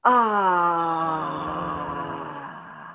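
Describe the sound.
A voice makes an audible out-breath as a sustained 'ah', a steady, tonal sound about three seconds long that drifts slightly lower in pitch and gradually fades.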